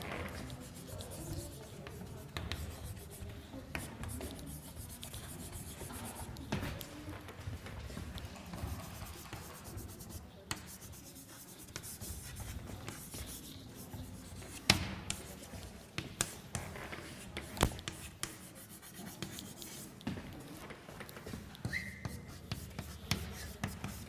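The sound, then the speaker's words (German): Writing out a solution by hand makes faint scratchy strokes and small irregular taps over a steady background hiss. “Ich schreibe es mal so.”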